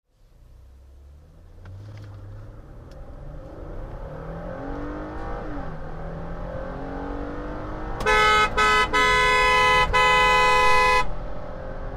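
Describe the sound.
Car engine revving hard as the car is driven fast, its pitch sweeping up and down repeatedly. Then a loud car horn blares for about three seconds, broken by a few brief gaps, over the continuing engine noise.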